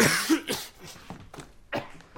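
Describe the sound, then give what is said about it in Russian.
A young man coughs into a handkerchief, a few muffled, breathy coughs spaced irregularly, the last one sharper, with no speech. “Парень кашляет, закрывая рот платком.”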